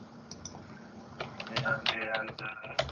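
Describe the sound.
Typing on a computer keyboard over a badly distorting connection: faint, irregular clicking that grows busier and louder, with sharp key taps standing out.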